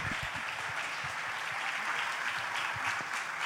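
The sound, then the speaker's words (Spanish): Applause from a live audience at a blues festival, a steady dense clapping that holds at an even level throughout, with no voices over it. “Fuerte el aplauso para ellas.”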